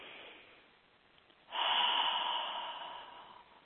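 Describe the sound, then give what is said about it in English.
A slow cleansing breath, a soft inhale through the nose followed by a fuller, louder exhale out through the mouth, quiet and on its own. “Take a cleansing breath in through the nose and out through the mouth.”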